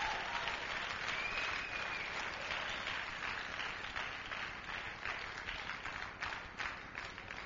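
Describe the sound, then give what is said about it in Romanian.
Applause from an audience after a demonstration during a sermon: steady, dense clapping that stays even and fairly soft for about seven seconds. “Hai să aplaudăm. Mulțumim pentru demonstrație.”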